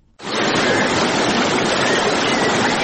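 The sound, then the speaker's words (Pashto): Rushing water flowing through the middle of the city of Ghazni, a loud, steady roar that starts abruptly and keeps going without a break, broad and hissing like a fast stream. “دا د هغه بیدونکو اوبو شور دی چې د غزنی ښار په منځ کې تیریږي.”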